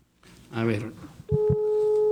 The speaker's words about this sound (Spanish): A ver, aquí le estoy marcando al maestro.